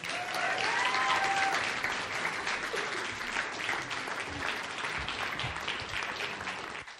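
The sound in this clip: Audience applause welcoming a speaker onto a stage: loud, sustained clapping from a crowd that holds steady throughout, with no talk over it.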